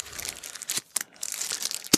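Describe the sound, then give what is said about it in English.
Cellophane crinkles and crackles as a cigar is pulled out of its wrapper, a few sharp bursts of rustling with brief pauses between them. “I'm starting to get arthritic because it hurts when I try to get my cigars out of the cellophane now.”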